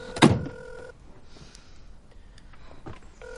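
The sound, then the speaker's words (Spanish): A car door shuts with one solid thump as someone gets into the car while holding a mobile phone to their ear. A steady electronic tone sounds at the start and returns at the end, with faint rustling and a softer knock between. “entra en su coche con el móvil en la oreja.”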